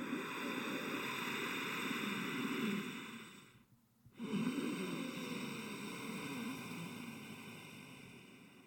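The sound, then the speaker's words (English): Ujjayi breathing, the throat-constricted 'Darth Vader' breath, demonstrated: a long, raspy, hissing breath, a brief near-silent pause, then another long, smooth rushing breath, with no talking. “Now, when you practice Ujjayi breath or Darth Vader breath, I'm just going to demo it. There's really no other way to explain what it sounds like other than to just do it. You literally try to sound like Darth Vader. So it sounds like this.”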